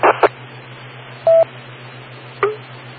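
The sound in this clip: Short electronic dialing tones, like telephone keypad beeps, come in a few separate bursts with brief gaps between them, over a steady low hum.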